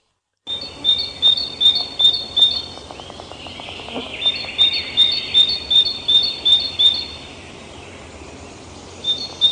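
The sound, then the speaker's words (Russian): Tits (titmice) call in quick series of thin, high repeated notes, two bouts of many chirps separated by a brief lull, over a steady low background. “Синицы.”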